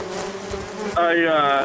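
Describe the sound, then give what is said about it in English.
Bees buzz in a steady, droning hum that swells louder and fuller in the second half, with no voices heard. “The bees just, they fly around. They go where they want.”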